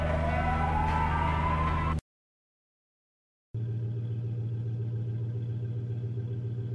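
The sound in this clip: A police siren wails upward in pitch for about two seconds and then cuts off abruptly. After a short silent gap, a steady, low vehicle engine hum continues to the end.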